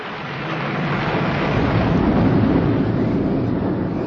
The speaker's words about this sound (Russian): Всю ночь бушевала буря, но ничего особенного не случилось.